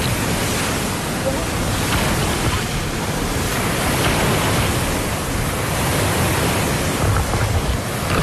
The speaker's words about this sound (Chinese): 七级西北风卷起的海浪超过一米